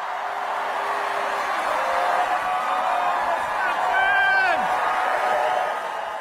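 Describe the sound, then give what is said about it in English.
Loud crowd cheering fills a high school gymnasium at a Harris campaign rally, a continuous roar with scattered whoops, while a voice speaks over it. “You could see watching the warm-up speakers that there was more noise in the room than there had been for any Biden event.”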